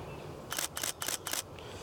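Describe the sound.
A camera shutter fires four rapid clicks in quick succession while photographing daisies. The clicks are crisp but soft, over a faint background hiss.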